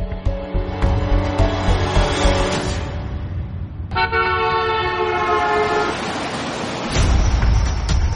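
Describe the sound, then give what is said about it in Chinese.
Car horns honk through a rush-hour traffic jam at a crossroads where three lanes are queued, with two long, loud horn blasts and a few shorter toots over a continuous low traffic rumble. “正值下班堵车的时间，十字路口处三条车道都排了长长的队伍。”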